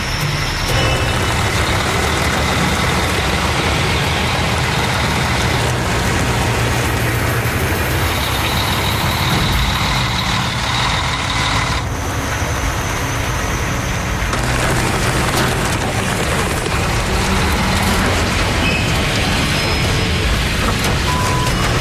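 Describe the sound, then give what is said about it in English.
Big rig truck with a trailer crossing a massive crack in an ice road: a loud, heavy engine drone with harsh grinding and splintering, creaking textures, sustained and loud throughout. “His first try, the big rig gets hung up. He's forced to back up for another run at the massive crack.”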